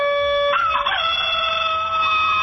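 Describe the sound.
A hen's call: a single loud, drawn-out cry with a wavering, bending middle section that rings out alone over steady tones.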